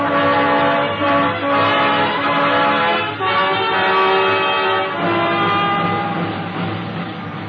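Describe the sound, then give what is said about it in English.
A steam locomotive starting and running, with a loud, steady rumble and sustained whistle-like tones throughout. “that's our train starting. Yeah, it's a general.”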